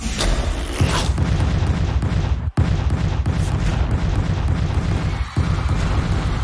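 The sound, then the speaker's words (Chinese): Explosions of white balls in a video game roar as a dense, continuous barrage of loud booms and crackling blasts, broken only by two very brief gaps. “嘿嘿，就让我先把这些会爆炸的白球消除掉吧。”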